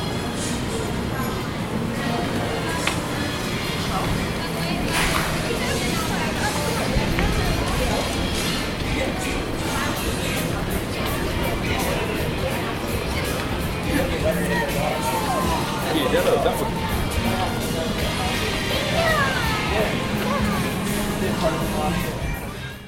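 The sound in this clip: Ambient sound of walking through the Universal Studios theme park: a steady murmur of many voices over a low rumbling background, continuous and moderately loud, with scattered brief clatters.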